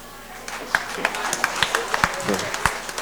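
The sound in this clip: Scattered claps from a church audience applauding a priest, a dozen or so sharp separate hits spaced unevenly under a speaking voice.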